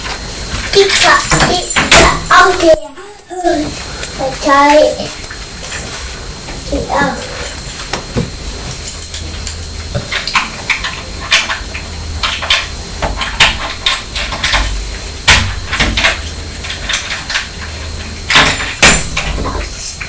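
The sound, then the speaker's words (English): Keys jingle and scrape against a door lock in a long series of metallic clicks, rattles and knocks, while people talk intermittently throughout. “Have you found the keys? Are you putting the key in the lock?”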